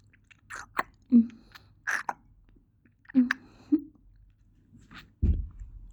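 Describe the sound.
Someone chews while tasting food: a string of soft, wet mouth smacks and clicks with irregular spacing, faint and with no talk.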